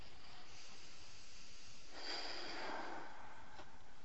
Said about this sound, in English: So we'll close our eyes and we'll just take a comfortable breath.